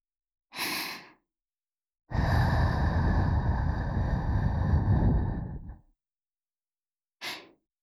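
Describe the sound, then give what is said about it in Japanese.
Gentle breathy blowing into the left ear for ASMR: a short soft puff, then a long, steady blow lasting about four seconds, then one more brief puff, all alone with no talking. “それではこちらも、右耳の時と同じように、お耳ふうふうからしていくのじゃ。”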